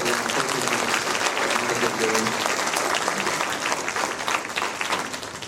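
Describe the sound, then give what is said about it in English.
A round of applause from an audience at a talk, dense and continuous clapping that holds steady and eases off slightly toward the end. “So let's give a big round of applause to”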